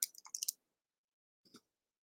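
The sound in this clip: Computer mouse clicks: a quick cluster of several sharp, crisp clicks, then after a silent pause another brief burst of clicks, faint and alone.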